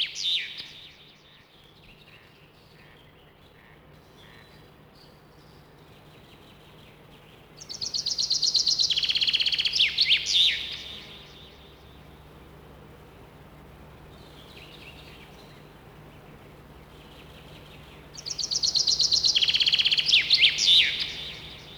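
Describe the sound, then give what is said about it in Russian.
Chaffinch song: two loud bright bursts of chirping phrases, each ending in a quick flourish, separated by quieter stretches with fainter calls. “А теперь вернемся к зяблику. Послушай внимательно его песенку. Она всегда заканчивается вот таким росчерком.”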